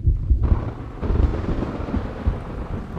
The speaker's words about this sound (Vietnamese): Đúng lúc ấy, trên nền trời sấm nổ rền vang, mưa bắt đầu rơi xuống.